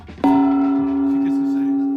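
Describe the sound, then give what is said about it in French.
A gong struck once, a sudden loud hit that blooms into a sustained, bright ringing tone with several clear overtones, holding almost level as it slowly decays. “C'est un gong”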